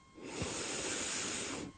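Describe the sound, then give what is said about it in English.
A deep breath is drawn in through the nose during a guided relaxation: a soft, steady, breathy rush lasting about a second and a half, faint and heard alone. “So if everybody out there wants to just close their eyes, we're going to take a deep breath in through the nose”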